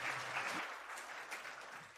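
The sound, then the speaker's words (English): Applause for a speaker right after a closing prayer at a religious gathering: a steady, dense wash of clapping lasting the whole moment, evenly sustained without clear pauses. “Thank you, brother. Let's give Dalton a round of applause.”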